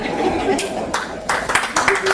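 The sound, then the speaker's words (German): An audience at a live comedy performance claps in a few short bursts that swell and fade, with a voice talking between them. “Oh, ihr klatscht schon, wenn ich nur was trinke?”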